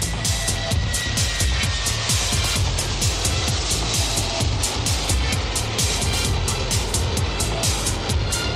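An airplane waiting to depart makes a steady, loud engine roar with a rapid, regular pulsing running through it for the whole stretch, with no talking.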